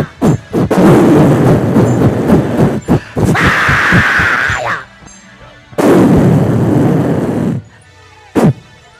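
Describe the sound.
Gunfire rings out after an order to fire: a few loud, rough blasts of shooting with sustained roaring noise between cracks, broken by short silences, and a single sharp report near the end.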